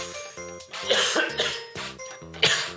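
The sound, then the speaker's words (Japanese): A person coughs after choking, producing several harsh, throaty coughs in an uneven rhythm with short gaps of breath and voice between them. “むせちゃったよ”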